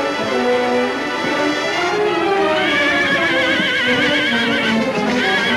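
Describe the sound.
A mare whinnies and neighs loudly as she gallops through beach sand toward the ocean, her calls repeating over a dense, steady background.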